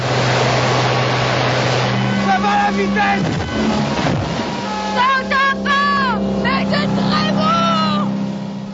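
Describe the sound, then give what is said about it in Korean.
A motorboat engine drones as the boat speeds along the Seine river. Its strong, steady hum carries beneath people talking. “모터보트를 타고 세네강을 달립니다.”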